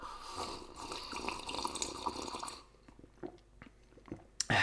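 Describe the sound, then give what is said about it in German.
A long sip of a drink: about two and a half seconds of continuous slurping and gulping liquid noise, then quieter swallows and small mouth clicks, ending with a brief sharp noise. “Da nehmen wir mal direkt einen längeren Schluck hier vor so einer Meldung.”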